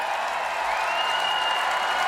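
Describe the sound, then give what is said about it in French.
A festival crowd of 40,000 cheers and applauds at The Cure concert, an even, continuous roar of voices and clapping that holds steady throughout. “Ah oui, le public... Le public acclame. Ah, vous entendez, c'est ça, 40 000 personnes.”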